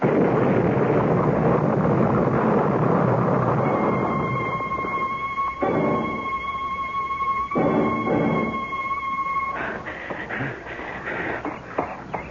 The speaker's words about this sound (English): Well, now maybe you'll believe me. You know that bomb was meant for me?